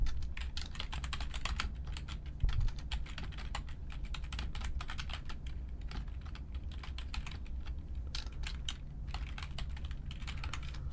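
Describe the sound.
Typing on a computer keyboard: many rapid, light key clicks in a steady stream that runs throughout without a real pause.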